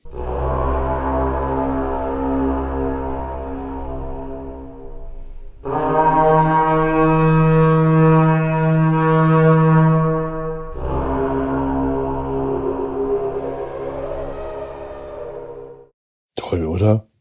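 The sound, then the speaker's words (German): A carnyx, the ancient Celtic bronze war horn, blown in three long, sustained blasts: deep, buzzing and richly harmonic, like a droning foghorn, with a short sharp burst right at the end. “das hier, wie nennt sich das? Karnyx”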